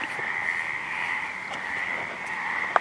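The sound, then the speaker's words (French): Frogs croak at night on a flooded football field, a dense, continuous chorus of high trilling calls that holds steady throughout, with one sharp click near the end. “Sur le terrain de foot transformé en piscine, un concours de coassement.”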